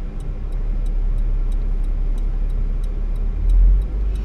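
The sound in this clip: A car's engine drones steadily while driving through an area of road construction, with a regular series of faint, high ticks running throughout and a brief deeper swell near the end.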